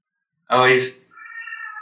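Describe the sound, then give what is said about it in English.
A cat screaming: one loud, harsh yowl rich in harmonics, followed by a thinner, fainter drawn-out tonal note. “That's my cat screaming.”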